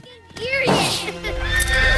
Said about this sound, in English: The horse snorts, rears and canters across the grass towards them.